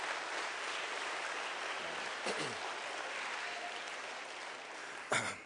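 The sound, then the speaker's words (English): Audience applause celebrating young people's creative work, a steady, fairly faint patter of many hands that carries on evenly for several seconds. “So let's give a round of applause to the creativity of these young people.”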